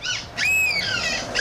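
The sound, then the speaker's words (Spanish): People imitating seagull calls give a few high, nasal, squawking cries, the middle one longest and wavering, each voice mimicking the bird's shrill call. “Escucha, tenemos los audios de algunas gaviotas. Esos son humanos imitando a gaviotas.”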